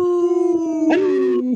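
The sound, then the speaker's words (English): People howl like wolves, imitating the sound with their voices: a sustained, mid-pitched wail that lifts slightly partway through, thickens for a moment, then holds steady before breaking off. “Howl!”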